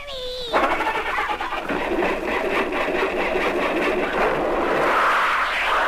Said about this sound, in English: Start the rocket.